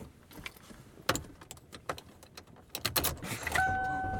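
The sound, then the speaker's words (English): A key fumbles in a car door lock, giving irregular metallic clicks, jangles and scrapes in scattered bursts, and a steady electronic tone comes in near the end. “And I am driving home. Couldn't get the key in the lock there for a minute.”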